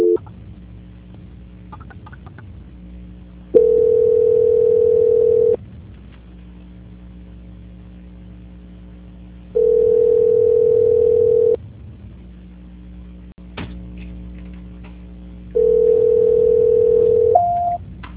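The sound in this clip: Telephone tone during a call transfer: three steady, mid-pitched tones, each lasting about two seconds and repeating at even intervals, separated by quieter stretches of low background noise.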